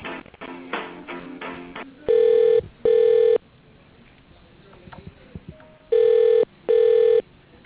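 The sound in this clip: Telephone ringback tone while a call is transferred to voicemail: two double rings, each a pair of steady electronic tone bursts, separated by a long pause, with a quick run of faint clicks and tones before the first pair.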